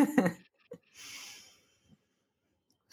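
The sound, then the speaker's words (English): A person takes one deep, audible breath in on instruction, a soft, airy inhale lasting about half a second. Faint clicks and mouth sounds come before it, and quiet follows. “So I'm going to ask you to breathe.”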